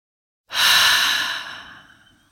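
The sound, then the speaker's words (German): A deep breath during a yoga practice: one long, airy exhale that starts abruptly, stays strong, then slowly fades away, heard alone with no talking. “Atme tief ein und aus.”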